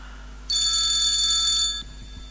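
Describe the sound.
A telephone rings once: a single loud, high, trilling electronic ring lasting a little over a second, then it stops, with no talk.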